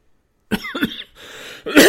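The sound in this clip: Coughing after sunflower seeds went down the wrong pipe: a few harsh, loud coughs and throat-clearing bursts with a raspy breath between them.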